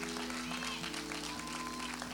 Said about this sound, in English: Would you clap your hands like you love the Lord?